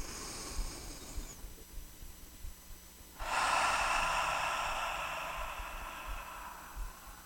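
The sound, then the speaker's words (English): Deep breathing during a guided relaxation exercise: a faint breath in, a pause while it is held, then a long, loud, airy exhale that fades gradually over about four seconds. “So let's take a nice deep breath in. Holding it for a second and releasing it.”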